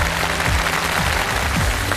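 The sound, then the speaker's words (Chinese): Dense, steady applause from the audience at a startup pitch event, filling the whole moment with continuous, even clapping and no voices on top. “掌声鼓励一下啊。”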